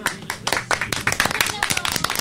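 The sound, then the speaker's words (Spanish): Applause on a radio show: irregular, fairly sparse clapping from a few people, crisp slaps scattered unevenly, with people talking over it. “Este aplauso es para ustedes.”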